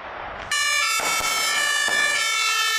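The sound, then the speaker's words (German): An emergency vehicle siren starts abruptly after a brief lead-in and then holds a loud, steady, even-pitched wail to the end, with no voices. “Ja, hier sieht man wieder Einsatzfahrzeuge”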